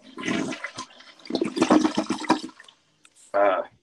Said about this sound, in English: Washing your hands is an important part of ASMR.